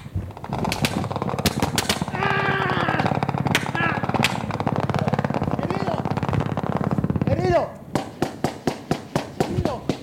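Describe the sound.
Heavy gunfire in a combat firefight where soldiers are being hit: a dense, continuous roar of rapid automatic bursts with shouting voices underneath, then several sharp, separate shots ringing out near the end.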